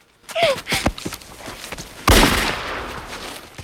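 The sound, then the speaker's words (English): A single gunshot fired during a robbery in the snow: a sharp, loud blast with a long decaying tail, preceded by a few soft thuds and scuffling sounds. “The gun discharges.”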